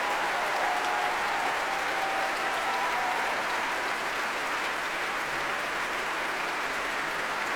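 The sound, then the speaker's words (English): An audience roars and applauds an orchestra's soloists as they hold hands and take a bow, a dense, unbroken wash of clapping and cheering that stays loud throughout. “just listen to those roars. The soloists on stage with Mr. Abreu, all of them holding hands and taking a bow.”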